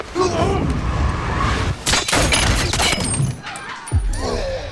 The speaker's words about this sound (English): Curving bullets. Yeah, you can tell the trajectory from the sound.